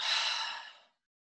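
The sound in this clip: Deep inhale during a yoga session: one smooth, airy breath drawn in for just under a second, faint and breathy, fading into silence.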